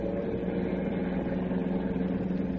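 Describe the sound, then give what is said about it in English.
A car engine drones steadily while driving, a low, humming tone that stays even in loudness without revving up or down. “Well, you just keep driving. I'll think of someplace.”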